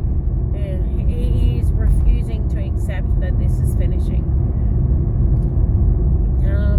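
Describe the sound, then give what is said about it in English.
Steady low road rumble fills the cabin of a moving car while a person talks over it throughout, the engine and tyre drone staying constant beneath the voice. “I know it's been a noisy one, and I apologize for the noise and the fact that I'm driving.”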